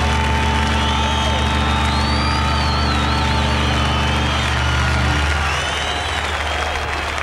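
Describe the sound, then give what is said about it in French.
Crowd ambience at the Woodstock festival: a dense, steady wash of crowd noise with murmuring voices and a low hum, holding loud throughout and thinning slightly toward the end. “Voilà l'ambiance de Woodstock.”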